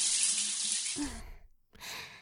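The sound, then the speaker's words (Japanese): Hot water is poured to rinse someone's back in a bath: a broad rushing splash that stops abruptly, then after a brief silence a second pour begins. “お背中流しますね。お湯熱くないですか？”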